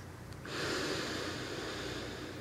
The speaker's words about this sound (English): Keep going, breathe in and breathe out. And relax.